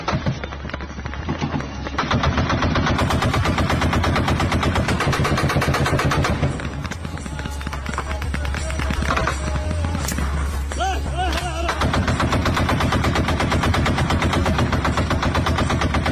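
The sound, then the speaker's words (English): Machine-gun fire of tracer rounds from forces shooting over a city, played from a video: dense, rapid, loud bursts of gunfire running almost without a break for the whole stretch. “Well, those aren't rockets. Those are tracer rounds.”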